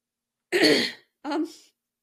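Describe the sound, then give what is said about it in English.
Throat clearing by one person: two short, rough, raspy bursts separated by a brief pause, the first longer and stronger, the second shorter and softer. “Clear your throat first.”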